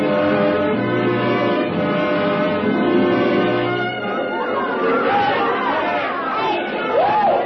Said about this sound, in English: The street had been roped off and there was a block party or something going on. Anyway, it was noisy.